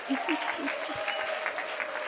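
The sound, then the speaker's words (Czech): Audience applause welcoming a woman introduced from the Czech Republic at a gathering. The dense, steady clapping holds evenly for the whole stretch. “Zatleskáme všichni, děkuju.”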